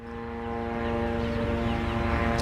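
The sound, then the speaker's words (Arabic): Military drones flying overhead above Gaza City give a steady, droning hum. Its even tones hold a constant pitch throughout, swelling slightly at the start and then staying level with no voices. “الطائرات المسيرة بكل أنواعها الآن تحلق في أجواء قطاع غزة بعمومها، والآن في مدينة غزة تحديدا في منطقة الشفاء هنا ومنطقة النصر”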